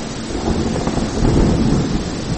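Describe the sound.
Thunder rolls during a storm as a loud, continuous low rumble mixed with rain noise, swelling slightly in the middle before holding steady.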